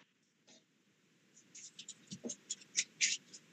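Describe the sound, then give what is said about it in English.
Quiet tapping on a keyboard: an irregular run of many light clicks that begins sparse and grows busier and a little louder toward the end. “Just the tapping on the keyboard.”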